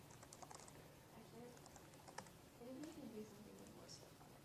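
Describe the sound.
Keys clatter on a computer keyboard as someone types a search into Google, a quiet, irregular run of many light clicks, with faint indistinct speech partway through.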